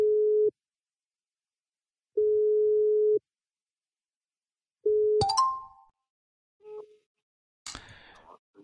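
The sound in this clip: A telephone line tone sounds when calling: a steady low beep repeats, with silent pauses between the beeps. It is cut off by a sharp click, then a few short scattered noises follow.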